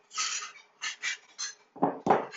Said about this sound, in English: I would get the teaspoons right here.